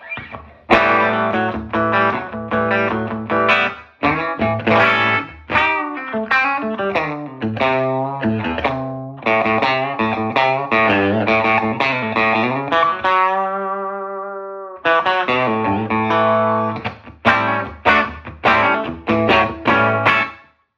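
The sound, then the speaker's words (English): An electric guitar plays through a 1959 Fender Super tweed amp with its bass control set just below 10, giving a gritty, distorted tone across loud strummed chords and phrases, including one long sustained note before the playing resumes. “Now I'm going to back off the bass control just down a little bit below 10, and all of a sudden it's going to sound pretty different. You can even hear the noise from the amp changes.”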